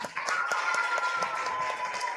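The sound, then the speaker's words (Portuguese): Audience applauding a teacher at a school event: a brief, moderate patter of scattered claps with a steady high tone running underneath. “Palmas para a nossa professora.”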